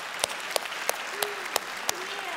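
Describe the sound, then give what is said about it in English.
Audience applause fills a church service, a steady bed of clapping with a few sharp, louder claps popping out at fairly regular intervals. “Can you put your hands together for that?”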